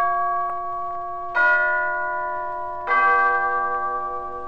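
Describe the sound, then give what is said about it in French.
Orchestral bells ring out with two clear strikes, each a bright metallic tone with stacked overtones that sustains and slowly decays, layered over a softer ring already sounding at the start. “Voici les cloches.”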